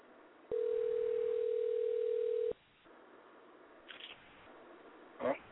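A single steady telephone ringing tone sounds while a call is being placed. The tone holds for about two seconds at one pitch, then stops. A couple of faint clicks follow and there is no talk.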